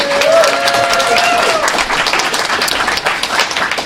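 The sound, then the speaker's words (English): Loud audience applause at a live show: dense, steady clapping that holds an even level for about four seconds, with no clear breaks. “we'd like to welcome all of y'all out there in the audience give us a hand. Let us know you're there.”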